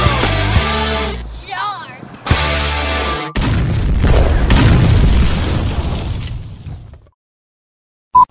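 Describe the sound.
A voice imitates bombs exploding. Voiced tones give way to a long, loud, rushing burst of breathy noise that fades into silence, followed by a short electronic beep at the very end.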